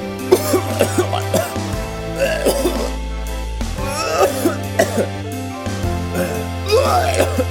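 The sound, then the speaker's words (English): A voice imitates violent, strangled coughing in many harsh, irregular bursts over a steady low musical drone. “Larry King almost died on air, he was really coughing. It sounded like a giant ball of air was strangling his uvula.”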